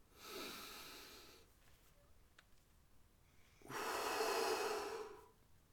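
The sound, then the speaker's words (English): A deep breath during a guided group breathing exercise: two long, airy breath sounds separated by a quiet pause, the second louder and fuller, both faint and without talk. “We've got some time left, so let's just do another deep, deep breath together.”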